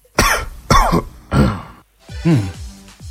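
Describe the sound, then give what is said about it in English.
Several harsh, throaty coughs from one person come in a spaced series, each a loud, short burst with brief gaps between them, heard alone without talk. “A cough? It is. That's right.”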